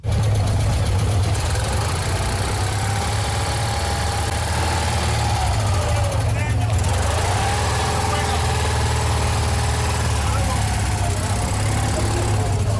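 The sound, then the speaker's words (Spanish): Citroën 2CV two-cylinder engine running, a slightly wheezy air-cooled twin: a loud, steady low-pitched idle with a constant throbbing rumble that holds at an even level from start to finish. “un motor un poco asmático, pero hay que decir que son dos cilindros. Inconfundible. Es el bicilíndrico del grupo Citroën, que motorizó el 2 caballos.”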